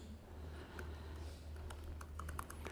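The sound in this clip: Computer keyboard typing as someone enters an SQL insert statement in a database query tool: many quick, faint keystroke clicks in an uneven rhythm over a low steady hum, with no talking.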